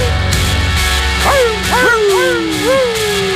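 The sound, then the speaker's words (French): Dogs whimper and whine in several high, wavering cries that bend up and down in pitch. They start after the first second and sit over a steady tonal background, with no clear barks. “C'est les chiens qui pleurent le départ pour la fin de semaine.”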